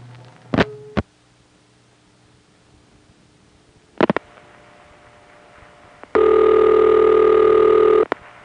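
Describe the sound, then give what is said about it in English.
Telephone call switching through a single crossbar tandem: a few sharp switching clicks come in two separate bursts, then a loud, steady ringback tone sounds alone for about two seconds over a low background hum. “When it's going through a single crossbar tandem like the ones we've heard, it can sound like this.”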